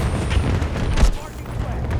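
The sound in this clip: A frag grenade explosion amid gunfire in a video game firefight, with one heavy, low boom near the middle standing out from a dense, noisy mix of game combat sounds.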